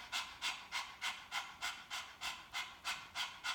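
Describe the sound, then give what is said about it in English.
A person pants rapidly with the tongue out, imitating a happy puppy during a breathing exercise. Many quick, even, breathy huffs follow in a steady rhythm, moderately loud with no talking. “you stick your tongue out, and you pant like a happy little puppy”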